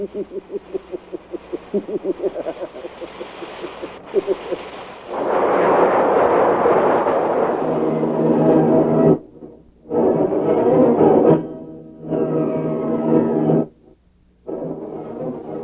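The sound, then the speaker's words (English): A radio drama sound effect of a rocket ship crashing onto a planet: a pulsing rumble swells into a loud, sustained explosive roar, broken by a few abrupt silences before the roar resumes. “The rocket ship hits the planet.”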